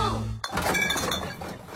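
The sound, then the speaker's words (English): Glass drink bottles clinking and clattering together as they are tipped in for recycling: one sharp crash, then a busy, bright jangle of glass knocking against glass that rattles on steadily, with no voices. “You hear that, Tassie? That's the sound of change adding up. Recycle Rewards gives you 10 cents for every eligible container you return.”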